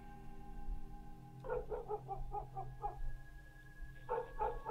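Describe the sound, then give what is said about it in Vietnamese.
Neighbour's dog barking in a quick run of faint, sharp barks, then a second shorter burst after a pause, all set against a low steady hum. “quả nhiên là chó nhà hàng xóm đã bắt đầu cắn lên nhấm nhặng”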